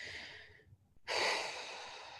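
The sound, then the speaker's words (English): A slow exhale through the mouth during a guided breathing exercise: a steady, airy, breathy rush of air that follows a brief pause after the held breath and continues evenly to the end. “And then just exhaling out through your mouth.”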